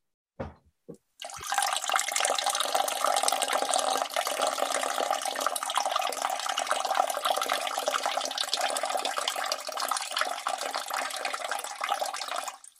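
Running water from a tap during a bathroom break, as hands are washed, preceded by a couple of brief clicks, then a steady, loud rushing flow lasting about eleven seconds with no talk.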